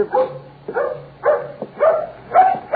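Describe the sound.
A dog yelps and whines in five short, tonal bursts at an even rhythm. The calls are moderately loud and stand alone with no talking.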